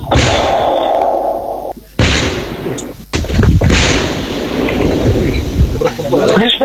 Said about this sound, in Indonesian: Tim penjinak bom di Bom Gegana Satbrimob Polda Papua melakukan disposal atau pemusnahan bahan peledak sisa Perang Dunia Kedua